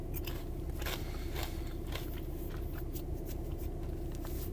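Someone eats crunchy Bourbon Street Smoky Sweet barbecue chips: many crisp, brittle crunches come in quick succession, fairly quiet, over a steady low hum.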